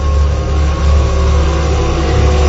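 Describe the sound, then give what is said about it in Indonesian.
A motorcycle engine runs during a ride, giving a loud, constant low drone with a faint rhythmic throb and no voices. “ketika aku sedang asik mengendarai motor,”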